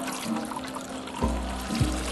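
Water is poured into large stone jars used for ceremonial washing, making a continuous splashing flow broken by a couple of brief, louder splashes.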